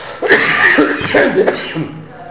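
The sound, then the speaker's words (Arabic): Rough coughing mixed with throat clearing, a few harsh, breathy bursts running together, loud and muffled. “هذا ما في إلا كحة زين”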